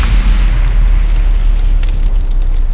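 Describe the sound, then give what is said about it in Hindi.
A tank struck by a shell in battle explodes and catches fire, giving a loud, sustained low roar with rough crackling bursts throughout. “तभी एक गोला आर्देशिर की tank पर गिरा और tank को आग लग गई”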